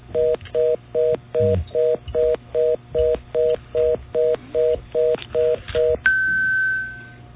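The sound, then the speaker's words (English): Telephone line tones after a caller hangs up on a call-in line: a long series of evenly spaced two-note beeps, followed by a steady higher tone that holds and then fades out. “Probably one person hung up.”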